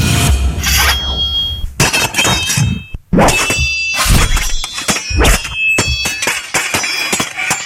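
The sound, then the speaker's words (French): Swords clash in many sharp metallic clangs and ringing strikes. The hits come in irregular bursts with brief pauses between them, and each leaves a bright, lingering ring. “je dirais que c'est un son d'épée. Ben oui, ce sont des épées, bravo, c'est gagné!”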